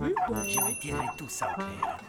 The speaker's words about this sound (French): Les poules caquettent, les canards cancanent et les dindons glougloutent.